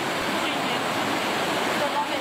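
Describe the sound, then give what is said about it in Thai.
Flash-flood water rushing down from the forest at Pak Chong, Nakhon Ratchasima: a steady, loud, roaring wash of turbulent water that holds constant without pause. “สถานการณ์น้ำที่น่าเป็นห่วงก็คือว่ามันมีมวลน้ำป่าไหลทะลักลงมาครับในพื้นที่ปากช่องหนองสาหร่ายเอาติดตามได้จากคลิปนี้เลยฮะ”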